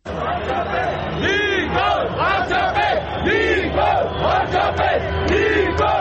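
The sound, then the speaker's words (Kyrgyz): A crowd of thousands of street demonstrators protesting in Armenia shouts and chants loudly, with many voices rising and falling in repeated bursts of cries. “Никол Пашинян миңдеген демонстранттарды баштап кайрадан көчөдө.”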